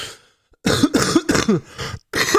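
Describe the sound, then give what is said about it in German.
Harsh coughing comes in a rapid series of short, throaty bursts after a brief quiet moment. The coughs are loud and heard alone. “Ich habe tagelang nicht so viel gehustet.”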